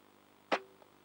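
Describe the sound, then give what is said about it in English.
A single gunshot from a gun in a video game, a sharp, loud burst with a short fading tail, followed by a faint click. “This is a really shit gun.”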